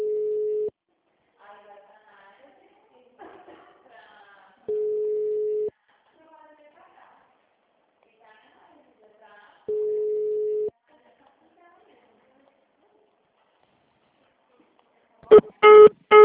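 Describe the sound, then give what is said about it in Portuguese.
Telephone busy signal: three steady mid-pitched tones, each about a second long, separated by a faint recorded voice announcement, then a few short higher beeps at the end. “Mensagem gratuita de telefone ocupado. Aguarde alguns minutos para voltar a ligar.”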